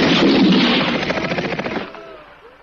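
A firing squad's gunfire in a radio drama erupts as a rapid, rattling volley of shots, loud at first, then thinning into scattered reports and fading out within a couple of seconds.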